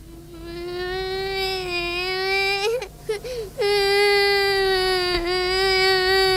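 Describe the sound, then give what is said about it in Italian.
A person crying during a police commissioner's harsh interrogation: a sustained, high, wailing sob held on a fairly steady pitch, briefly broken by a shaky catch of breath midway before the loud wail resumes. “Perché piangi? Che te piangi?”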